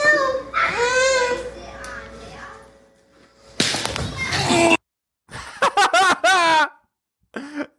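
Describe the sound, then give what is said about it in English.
A child cries in the background in wavering, high-pitched bursts that come and go, interleaved with other people talking and short gaps of silence. “And then the girl hits him and you can hear the kid crying in the background.”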